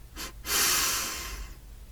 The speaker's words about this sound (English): So we'll inhale through the nose,